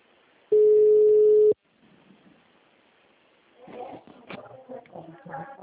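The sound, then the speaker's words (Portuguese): A telephone call's ringing tone: one steady, mid-pitched beep lasting about a second, followed by quiet line noise and faint muffled sounds. “Tá chamando.”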